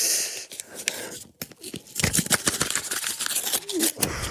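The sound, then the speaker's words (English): Paper tearing and crinkling as a gold envelope is opened, with brisk, soft rustles that grow busier and louder partway through. “I'm going to open the gold envelope now”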